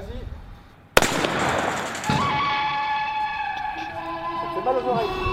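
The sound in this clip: A less-lethal LBD launcher, used by French police at riots, fires a single sharp, loud report after a quieter start. A dense lingering noise follows, with steady tonal sounds continuing afterwards.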